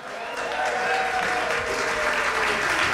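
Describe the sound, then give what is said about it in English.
Sustained audience applause at a live noon concert, a loud, dense, steady wash of clapping that fills the whole clip without a break. “how about a hand for Zeke Burse?”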